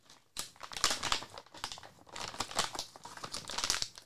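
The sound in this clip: A resealable Ziploc bag of ground coffee crinkles and rustles as it is handled. Irregular bursts of crisp plastic crackle rise and fall in loudness, with no voices.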